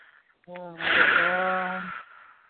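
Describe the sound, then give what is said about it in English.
A deep breath is drawn in a long, audible, wheezy rush that rises to a peak and then tapers off, partly voiced and heard alone. “Take a breath.”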